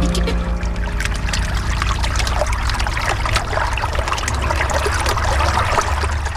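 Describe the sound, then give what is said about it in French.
Water of the Loire river at Rochecorbon, upstream of Tours, on a frosty winter day, makes a steady trickling, splashing wash that goes on without pause, with no voices. “Au moment où on enregistre cette émission, où on se retrouve au Pelliot, donc à Rochecorbon, en amont de la ville de Tours, sur la Loire”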